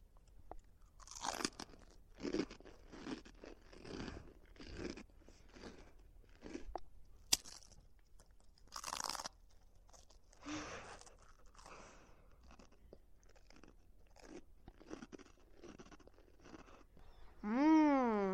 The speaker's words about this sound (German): Pass auf, ich breche ein Stück von der Gummibärchenfensterbank auf.